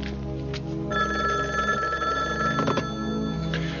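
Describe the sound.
A telephone ringing in a hall: a loud, steady, bright ring that keeps sounding throughout, with a few short clicks mixed in.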